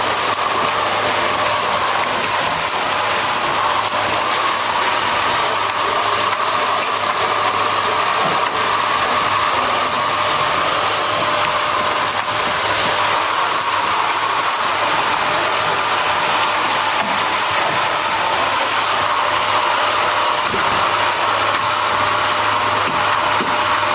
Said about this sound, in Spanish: De día, una asistenta pasa la aspiradora a la alfombra del salón y por debajo del piano.